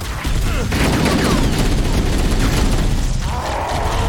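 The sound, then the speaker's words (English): Sustained machine gun fire from the gunner of a Warthog vehicle in a video game battle against enemies. The fire is a loud, dense, continuous rattle with no clear breaks. “All right, so our gunner is going to shoot his machine gun.”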